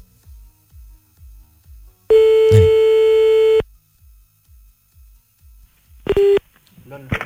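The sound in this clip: Telephone being redialled after a call hung up: a run of soft clicks, then a long steady electronic tone, more clicks, a short second tone, and a voice starting at the end.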